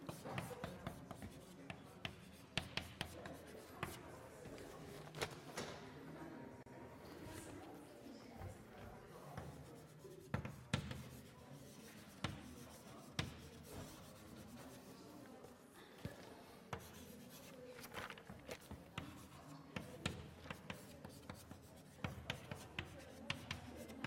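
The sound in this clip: Chalk scratches and taps on a board as the Greek letter Xi is written, with many short, irregular strokes and clicks in a quiet setting.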